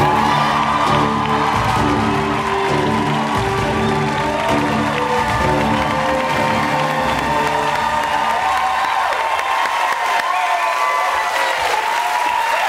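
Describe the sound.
A studio audience at a talk show erupts for an author's entrance, loud sustained applause mixed with cheering and whoops that stays strong from start to finish.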